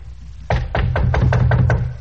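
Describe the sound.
Rapid knocking on a hotel room door at midnight, a quick run of about six or seven sharp, evenly spaced raps, fairly loud and heard alone without any talk.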